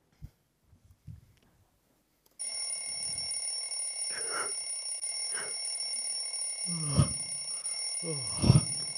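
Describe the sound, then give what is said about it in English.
A cheap blue plastic £5 Goodmans alarm clock rings with a steady, piercing, high-pitched electronic tone. It starts after about two seconds of near silence and continues loudly to the end, with a few brief muffled knocks over it. “Toby Webb has woken up to the same sound for the last 11 years. And every morning questions how many more mornings the £5 Goodman's alarm will last.”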